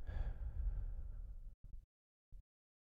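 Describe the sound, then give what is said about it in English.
Deep breathing during a guided relaxation exercise: one long, soft exhale lasting about a second and a half, then two short, faint breath sounds after a pause. “Close your eyes. Inhale. Exhale.”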